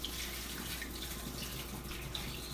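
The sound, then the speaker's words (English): Water running from a tap while an oat container is rinsed, a low, steady hiss of flowing water without pause or talk. “Rinse as much as possible and dry it.”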